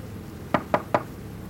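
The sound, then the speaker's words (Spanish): Knuckles rap three times on the door of ship's cabin 23, in a quick, even rhythm of sharp wooden knocks over a low, steady background hum. “Acá estamos, camarote 23, voy a golpear.”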